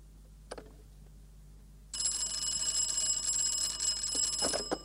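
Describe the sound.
A telephone bell rings on an old 1950s phone line. A faint click is followed by quiet, then a loud, steady, high-pitched ringing starts partway through and continues to the end.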